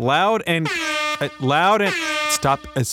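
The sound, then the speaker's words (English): An air horn blown as a demonstration of how disruptive offshore seismic blast testing is, sounding a few loud, blaring honks with rising pitch and short gaps between them. “he blew an air horn to demonstrate, how disruptive seismic blast testing offshore can be.”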